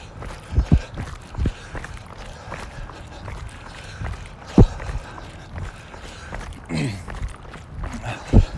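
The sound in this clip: Running footsteps on a street, a series of irregular soft thuds with several sharper, louder strikes standing out over a steady background rush.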